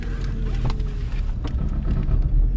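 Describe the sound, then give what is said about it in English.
A car driving down 15th Avenue in Liberty City, a North Miami neighborhood, with steady low road rumble and wind buffeting, plus a few faint clicks, and no talking. “Okay, so we are driving down 15th Avenue in Liberty City, which used to be a very bustling street, but now is pretty empty.”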